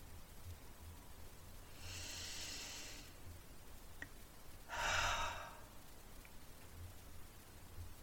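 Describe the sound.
A single deep breath taken during a pause: a slow, soft inhale, then a stronger, shorter exhale after a gap, faint and alone without talking.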